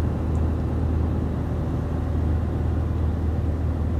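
A truck driving slowly around a parking lot gives a steady, loud, low engine rumble with an even tone throughout and no voices.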